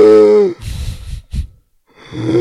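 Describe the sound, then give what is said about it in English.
A man's voice imitates wheezing while munching popcorn: a strained voiced groan, then rasping breathy gasps, a brief pause, and another rising strained groan. “like just wheezing as he's munching down this popcorn, trying to catch his breath.”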